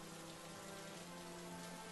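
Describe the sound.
Rain falls in a steady, even hiss that keeps a constant level throughout, with no voices and no separate drops standing out.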